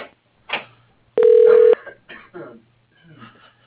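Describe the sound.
A telephone line gives a single steady, sustained ring tone as a call is put through to voicemail. Brief, faint voice-like sounds come before and after it.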